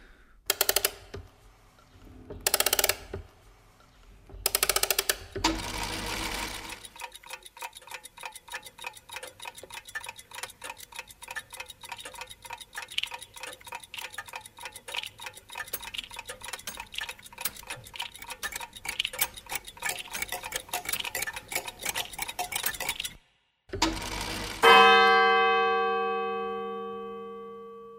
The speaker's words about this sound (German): Nur wenn man es über Kopfhörer hört, merkt man, wie das Uhrwerk nach hinten links zum Beispiel wandert.